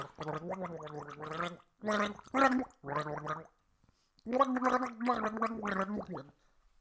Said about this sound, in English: you can put the water in and gargle it too